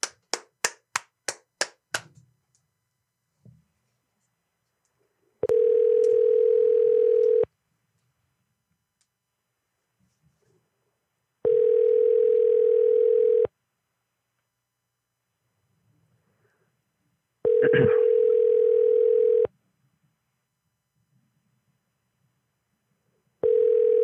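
Telephone tones during an outgoing call: a short burst of quick beeps at the start, then long, steady, evenly spaced ringing tones, each lasting about two seconds with silence between, repeating three times before a fourth begins.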